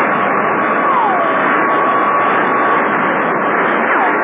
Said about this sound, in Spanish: Los aviones supersónicos trataron de alejarse del punto de ataque del platillo volador